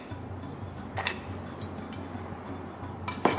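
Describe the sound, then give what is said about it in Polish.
A spoon clinks faintly against a bowl while marinade with sugar is stirred for pork neck, with a few light, scattered clinks over a low, steady hum. “Dalej mieszamy. No i marynata jest gotowa.”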